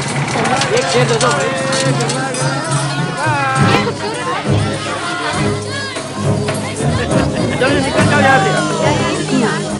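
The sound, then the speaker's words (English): A bustling market crowd in Peshawar, Pakistan, near the Afghan border, with many overlapping voices and busy chatter forming a dense, shifting hubbub throughout. “Peshawar, Pakistan, near the Afghan border. Locals trade goods in a bustling market.”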